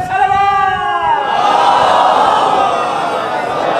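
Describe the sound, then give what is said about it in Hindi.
A large crowd at a religious gathering chants slogans. A single strong voice calls out first, then many voices answer together in a loud, sustained roar that holds to the end. “Mix हो गए आपके सारे नारे, मजा नहीं आया।”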